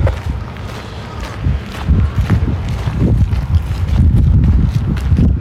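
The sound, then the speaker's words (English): Wind outdoors on a mild winter day of about four degrees, heard as a loud, steady, gusty rumble with uneven buffeting thumps and no voices. “Not a bad day, bit of wind.”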